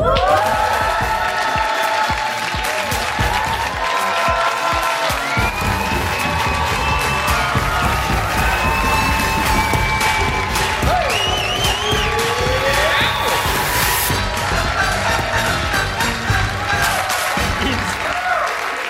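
Wild cheering and applause from a studio audience at a television game show: dense, sustained clapping with whoops and shouts rising above it, loud and unbroken throughout.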